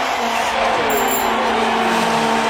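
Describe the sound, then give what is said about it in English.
Racing cars at an F1 Grand Prix roar in a loud, continuous high-pitched engine whine, a steady dense drone that holds for the whole stretch. “Or perhaps they could even be playing a vuvuzela whilst riding a bike in the middle of an F1 Grand Prix.”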